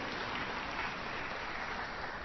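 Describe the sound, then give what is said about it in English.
An audience claps in agreement during a religious talk, a faint, even stream of applause that holds steady from start to finish with no voices on top. “Yeah, you can clap if you agree with it.”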